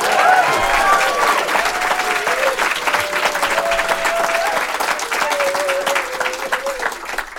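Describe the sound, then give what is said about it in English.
Audience applause welcomes Dr. Kurt Campbell at a China Career Summit at Seneca, a loud and steady wash of clapping with some cheering mixed in that continues unbroken throughout. “So, Kurt Campbell, a very warm welcome to Seneca. Let's hear it for Dr. Campbell.”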